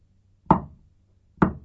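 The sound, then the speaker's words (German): Two single knocks on a door, about a second apart. Each is a sharp thud that dies away quickly in otherwise quiet surroundings. “Sie klopfen an.”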